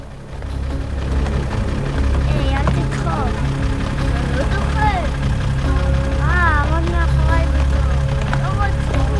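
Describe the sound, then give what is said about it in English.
A school bus pulling up, its engine giving a steady, loud, low rumble throughout, with voices talking and calling over it. “A school bus pulls up and children get out.”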